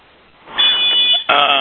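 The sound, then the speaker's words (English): A fire alarm goes off with a steady, high-pitched electronic tone over a noisy background. It starts after about half a second, drops out briefly, then resumes loudly. “Oh, for heaven's sake, the fire alarm just went off.”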